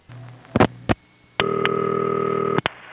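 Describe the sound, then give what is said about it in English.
A telephone call routes through a crossbar office on a direct trunk. A few loud mechanical clicks sound over a faint hum, then a steady ringing tone starts right after and lasts about a second before a final click cuts it off. “If it's going through on a direct trunk, you'll hear the ring start right after the first set of loud clicks, like this.”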